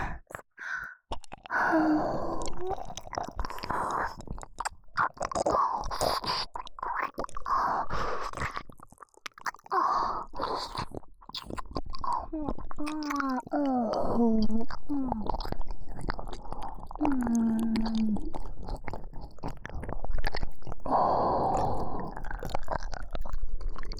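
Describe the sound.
Wet mouth sounds of an ASMR performer pretending to eat a listener's ear: many soft squishy smacks, nibbling chews and crunch-like clicks, interspersed with breathy sighs and quiet voiced hums, intimate and close throughout.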